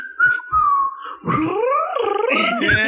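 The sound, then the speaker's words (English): A person's voice imitates a bird-like whistling and whirring, starting with a thin, sustained whistle and sliding into a loud, warbling, wavering tone that rises and falls before ending in a rapid fluttering trill. “I just love how she was whistling and whirring.”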